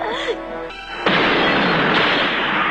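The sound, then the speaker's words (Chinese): A gas explosion from a gas tap left open: after a short stretch of faint tonal sound, an abrupt loud blast breaks into a dense, rushing roar that holds steady to the end. “机灵的珍妮在爆炸时躲在沙发底下，才幸免于死。”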